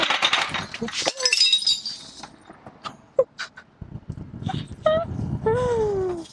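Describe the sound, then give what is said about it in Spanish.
A ceiling falls in with a crash and a clattering, glass-like spray of breaking debris. Quieter knocks and bangs follow, and voices exclaim toward the end. “Sí, se nos cayó el techo.”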